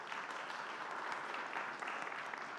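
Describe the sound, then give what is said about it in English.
Applause from a church audience welcoming a young reader to the front: a steady, dense wash of many hands clapping that holds evenly for the whole stretch and stays fairly faint. “So can we give Ellie a round of applause as she comes up”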